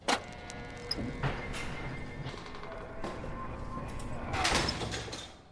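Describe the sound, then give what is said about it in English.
A heavy San Quentin prison door slams shut with a few loud metallic clanks and thuds, followed by a steady rumble. The loudest burst of clanking comes near the end. “That's the sound of the San Quentin prison door slamming”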